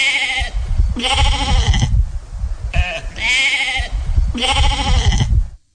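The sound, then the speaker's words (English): Baby lambs bleat loudly in several long, wavering cries, one after another with brief gaps between them, and the calls fade out abruptly at the end. “then we got some baby lambs, Mary Beth's baby lambs”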